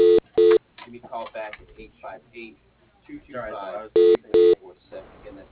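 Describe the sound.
Telephone keypad tones dialing an extension on a company's automated phone line: four short, steady beeps, two at the start and two near the end, with a recorded voice speaking between them.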